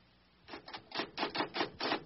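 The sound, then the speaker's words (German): Scratching of someone writing, a rapid run of many short, dry strokes that come in uneven bursts, faint and with no talk. “Ja, sie schreibt etwas.”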